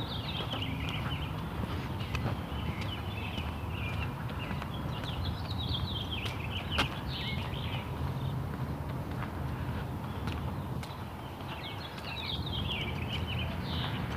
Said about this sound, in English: I'm just walking along listening to birds. There's a robin somewhere off to my left.